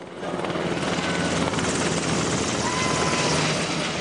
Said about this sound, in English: And that is the sound of a real UH-60 Black Hawk helicopter. It's circling outside of the Los Angeles Convention Center.